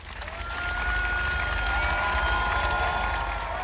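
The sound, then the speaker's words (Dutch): Loud applause from a crowd as a queen's coffin arrives at a palace in London in the evening: sustained dense clapping and crowd noise swell in over the first second, then continue steadily. “Onder luid applaus.”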